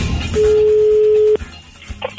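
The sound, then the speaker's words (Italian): A telephone line tone while placing a call: one steady mid-pitched tone that holds for about a second and cuts off abruptly, followed by quieter clicks and a couple of short beeps. “Ma c'è che chiamo Paolo, va, che è un po' che non lo sento.”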